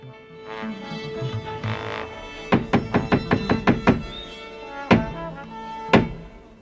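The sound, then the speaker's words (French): Theatre knocks, the traditional three blows that open a French stage show: a quick run of sharp wooden thuds, then slower, separate heavy knocks spaced about a second apart, each ringing briefly over a quiet hum. “En attendant, on va frapper les trois coups. Radio Scénic, c'est parti.”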